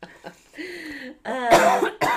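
Coughing and throat clearing from someone recovering from the flu: a voiced, gravelly clearing of the throat, then a few harsh, loud cough bursts in quick succession, with no talk.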